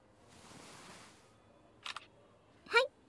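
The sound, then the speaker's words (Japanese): Camera shutter taking a photo: after a soft, low rustle, a quick double click sounds, followed by a louder, sharper shutter burst. “撮影しました。 いつでも写真を撮ってもいいという恋人特権を行使させていただきました。”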